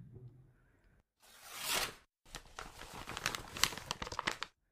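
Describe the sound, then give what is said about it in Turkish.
A paper envelope is torn open: a long, swelling rasp of tearing paper, a brief pause, then a busy stretch of crackling and crinkling as the paper is handled. “Zarfı açabilirim artık.”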